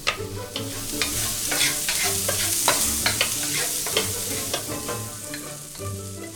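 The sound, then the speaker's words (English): Shallots and garlic fry in a pan over medium-high heat, giving a steady, loud sizzle broken by many quick clicks and scrapes of a utensil stirring them. “The first step is I'm going to cut some shallots. Then fry them with a little bit of garlic on medium-high heat.”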